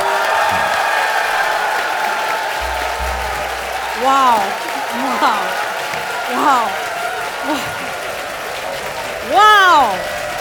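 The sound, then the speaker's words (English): An audience in Munich cheers and applauds, with steady clapping under several high, arcing whoops and shouts that rise and fall. The loudest burst of cheering comes near the end. “Can I hear from the Munich audience?”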